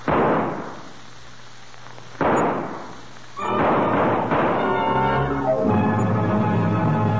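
Rifle shots fired during a hunt: two sharp booms, each with a long decaying tail, then a denser rumbling burst that gives way to a sustained tonal swell.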